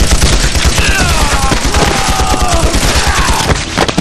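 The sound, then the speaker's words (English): A burst of automatic gunfire erupts outside a gym during a fight with pirates: dense, rapid, loud shots that crackle without a break for the whole stretch. “Shooting erupted from outside the gym.”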